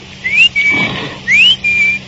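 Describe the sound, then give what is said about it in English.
A person whistles to imitate the bird of a cuckoo clock, giving two paired phrases, each a rising slide followed by a steady high note, loud and clear against a quiet background. “My father had a clock that told the time with a bird jumping out. The bird whistled, like this.”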